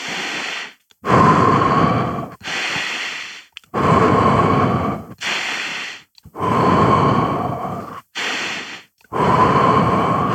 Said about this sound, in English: Just a nice inhale, full breath, a full inhale and full exhalation. And not slow, just a nice pace.